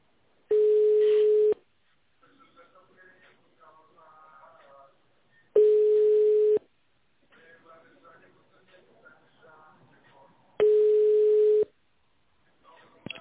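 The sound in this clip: A telephone ringback tone plays on a call to a company line while the caller waits for the operator: three steady, evenly spaced one-second tones, with a faint recorded voice speaking in the gaps between them.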